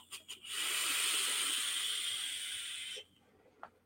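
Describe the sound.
Vapor drawn through a Geekvape Aegis Boost Plus vape device with a fairly loose draw: a steady, even airy hiss lasting about two and a half seconds, preceded by a few faint short puffs.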